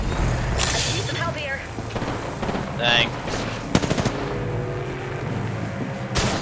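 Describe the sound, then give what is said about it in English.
Gunfire in an online shooter video game comes as short rattling bursts of automatic fire, one early, a rapid cluster in the middle and another near the end, with a voice talking between the shots. “Getting shot. Someone's got a death wish. Reloading.”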